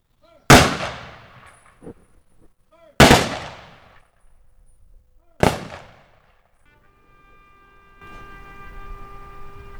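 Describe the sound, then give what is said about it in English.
A rifle salute volley at a veterans' ceremony: three loud, sharp cracks, evenly spaced a few seconds apart, each with a ringing tail. Faint sustained tones begin near the end. “We will now honor our departed veterans with the rifle salute and the taps.”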